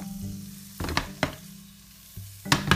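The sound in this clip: Bacon cubes sizzle and fry in a pan while being stirred, a steady crackling hiss broken by a few louder bursts of stirring.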